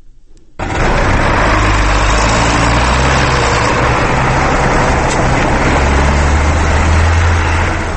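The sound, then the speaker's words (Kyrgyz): Engine drone of a John Deere wheeled tractor pulling a plough across a fallow field at a village edge. It is a loud, steady, unbroken roar that kicks in after a brief quiet start and holds level throughout, with no voices. “Дөңгөлөктүү Джон Дир тракторунун буурусуну Кундрайтит айылынын четиндеги шүдүгөрдү тилип оодарып жатты.”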